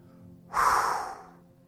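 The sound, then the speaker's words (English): A single forceful breath, exhaled onto listeners during a sermon, rises suddenly into a loud, breathy rush and then fades away slowly over about a second, with no talk. “I now breathe on you.”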